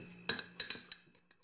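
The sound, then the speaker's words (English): Cutlery and dishes clink as a table is set for lunch at home, a few quiet, sharp metallic and glassy taps in quick succession followed by fainter, sparser clinks. “Can you set the table, please”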